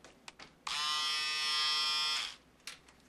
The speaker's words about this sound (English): Ooh, and look what I got for you. Oh, an electric razor. So you can shave yourself now.